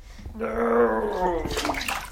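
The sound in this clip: Bathwater sloshing and splashing as a 3-year-old boy and a 1-year-old girl are put into their bath, with a brief voice-like tonal sound rising above the water.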